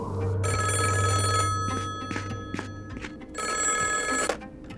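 A telephone rings in two long bursts separated by a pause, each a bright, buzzing, steady trill, with a low hum at the start.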